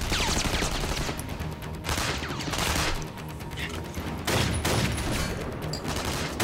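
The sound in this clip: Sustained gunfire from a sniper rifle in a video game, loud and dense. The shots run together in near-continuous bursts with only brief dips between them.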